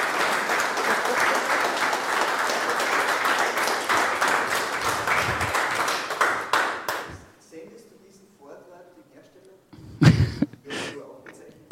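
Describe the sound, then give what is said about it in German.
Audience applause after a talk: dense, sustained clapping for about seven seconds that thins out and fades, after which a voice begins speaking against a quieter background. “Also bitte nochmal eine Runde Applaus.”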